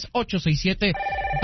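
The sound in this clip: A telephone rings with a steady electronic tone for an incoming call to a radio call-in show, following a short stretch of a voice talking.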